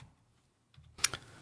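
A few sharp clicks of computer keyboard keys as a decimal number is typed in, faint and quick, with near silence before them.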